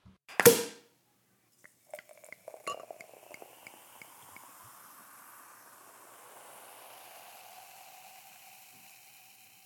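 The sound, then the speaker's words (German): A bottle of brut white Sekt is uncorked with one sharp pop, followed by a few light glassy clinks and then a steady, soft fizzing hiss that continues to the end, with no talking. “Insofern Flasche auf und rein gucken und riechen.”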